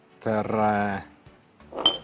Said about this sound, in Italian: E metto un piatto.